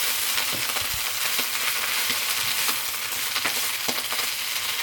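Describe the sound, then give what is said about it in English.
Ginger paste is stirred into a pot of red Thai peanut curry, giving a steady, loud frying sizzle broken by several scraping spoon strokes, with no talking. “So a bit of ginger paste in there, might as well finish this pot. Stir that in a little bit.”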